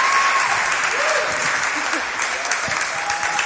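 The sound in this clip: An audience applauds to welcome a speaker to the stage: dense, steady clapping that stays loud and even throughout.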